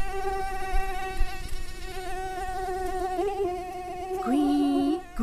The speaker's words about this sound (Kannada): ಕಿವಿಯ ಬಳಿ ಕೇಳಿಸುವ ಈ ಸದ್ದು ಯಾರದ್ದು ಗೊತ್ತಾ? ಹೌದು, ಇವತ್ತಿನ ನಮ್ಮ ವಿಶೇಷ ಅತಿಥಿ ಸೊಳ್ಳೆ.